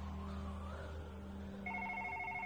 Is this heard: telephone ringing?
yes